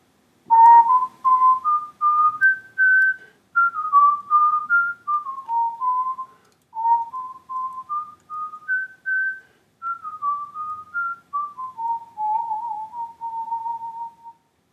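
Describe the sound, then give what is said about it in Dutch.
A person whistles a tune alone, a clear run of many short, steady notes that step up and down in pitch, with a small ornamented turn near the end. “hij kon het wel voor ons fluiten en dan klinkt het zo.”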